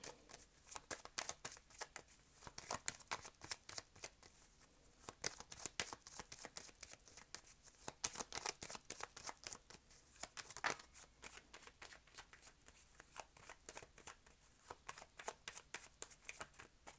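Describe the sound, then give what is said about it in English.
A deck of reading cards is shuffled and cards are drawn for a card reading, making a continuous crisp patter of rapid riffles and flicks that runs the whole time without talk. “Let me just get three cards real quick.”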